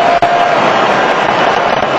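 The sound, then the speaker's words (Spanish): A stadium crowd erupts in joy as a score shows on the giant screen, a dense, loud roar of cheering that holds steady without a break. “En la pantalla gigante, ganando 3-2 Argelia, la gente explotó de alegría.”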